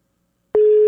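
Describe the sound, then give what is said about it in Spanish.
A telephone tone sounds on a call that is dialed and goes unanswered. Silence comes first, then a steady, single-pitched electronic tone starts about halfway through and continues unbroken to the end. “Ahí le estoy marcando a Corina.”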